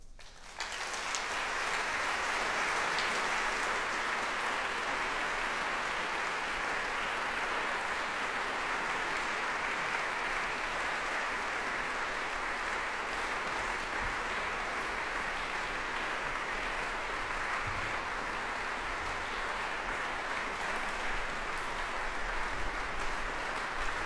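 Audience applause fills Cadogan Hall as members of the London Sinfonietta return to the platform, a sustained, even roar of clapping that holds steady for more than twenty seconds.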